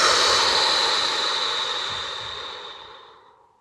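A slow, soft breath during a night-time meditation: one long airy exhale that starts fairly strong and gradually fades to silence, heard alone.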